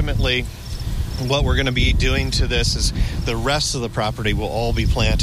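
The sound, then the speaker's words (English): Crickets chirp outdoors on a roof planted with many native flowers, forbs and shrubs. Their faint, steady high chirring sits under continuous close talk. “But out on the roof right now, you can hear the crickets chirping,”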